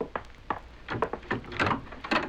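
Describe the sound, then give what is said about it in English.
A wooden door being opened, heard as a quick series of knocking clunks and rattles of varying loudness, with no voices. “Now, I am going to open the door.”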